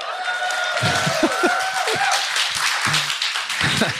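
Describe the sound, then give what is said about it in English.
A live audience claps and applauds at a comedy show recording, a dense steady patter of hands with voices talking over it. “We are live, in case you couldn't tell from the people who are in the crowd.”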